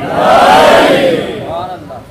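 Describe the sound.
A crowd at a religious gathering shouts back in unison in answer to the Nara-e-Haidri chant, a loud, sustained roar of many voices that swells, holds, then fades away.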